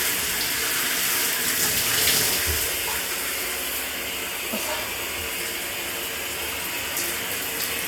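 Water running to rinse off sweat, a continuous, even rushing hiss that holds steady throughout, with no voices.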